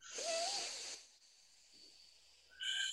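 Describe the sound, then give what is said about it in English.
A deep breath is drawn in during a guided group breathing moment. The long, airy, faint hiss carries a slight whistling edge, and after a quiet pause another short breathy burst begins. “So let's all take a deep breath together. Inhale.”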